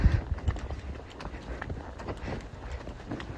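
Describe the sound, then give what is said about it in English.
Hoofbeats of a horse in a relaxed trot during a riding session, a steady run of soft, even clip-clop footfalls over a low rumbling background. “You just want that nice, relaxed trot.”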